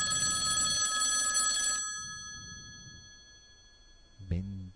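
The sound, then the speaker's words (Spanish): Ringing tone of an unanswered telephone call: a single bright, sustained electronic ring of nearly two seconds that stops and fades into quiet hiss, with a brief tonal sound near the end. “Segundo tono.”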